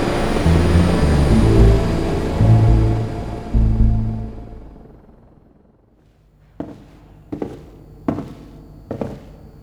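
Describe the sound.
Aircraft landing: a loud, broad roar rumbles and then fades away over several seconds. A near-silent pause follows, then four sharp, evenly spaced thuds.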